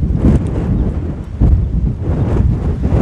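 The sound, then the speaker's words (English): Wind buffeting a microphone as someone walks outdoors into the wind. A loud low rumble with irregular gusting surges, and no voices. “I came around the corner, I'm walking into the wind. If you can't tell, that's good. But I got my head down, trying to protect the microphone as best I can.”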